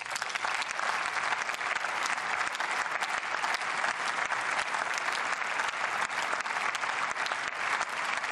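Sustained applause from an audience, a dense and steady wash of clapping that holds at the same level for the whole stretch with no voices standing out.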